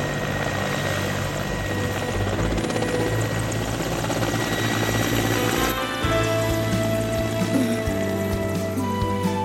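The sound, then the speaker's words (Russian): Helicopter taking off and flying over taiga, its loud, steady rotor and engine drone filling the whole stretch, with the tone shifting partway through as it passes. “Над тайгой взлетает вертолет. Вертолет пролетает над округой.”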